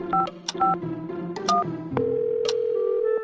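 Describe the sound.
A telephone call being placed: a quick series of short dual-pitch keypad beeps, then a steady ringing tone that holds to the end.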